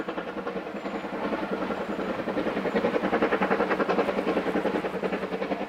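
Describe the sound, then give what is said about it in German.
Steam locomotive running on the Vale of Rheidol Railway, a loud, steady, rhythmic chuffing that continues without a break, with no voices. “Die Dampflokomotive.”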